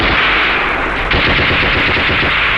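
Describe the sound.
Rapid machine-gun and rifle fire in a battle skirmish, a dense, continuous rattle of loud overlapping shots that runs the whole time with no pauses.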